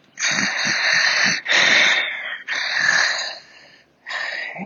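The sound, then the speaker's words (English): A voice imitates labored, struggling heavy breathing, the kind that seems to come from someone unwell: four long, rasping, wheezy breaths, each loud and breathy, with the last one cut short. “The breathing sounded struggled or something. It just didn't sound the way you would think a healthy person's heavy breathing would sound.”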